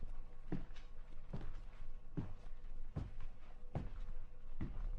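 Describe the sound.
Faint footsteps walk across a room toward a sofa: six soft, evenly spaced steps at a slow, steady pace.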